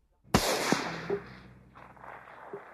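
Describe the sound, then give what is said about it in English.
A single rifle shot rings out as one loud, sharp crack, and its rumbling tail fades away over about two seconds. “At that instant, a shot from a rifle killed the Indian.”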